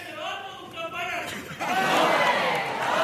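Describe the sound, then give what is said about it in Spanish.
A crowd cheers and shouts for a neighbourhood carnival chirigota group, the noise swelling louder partway through, while a voice talks over the din. “El público, sí. El público alentando a esta chirigota, la chirigota del barrio que vuelve después de varios años”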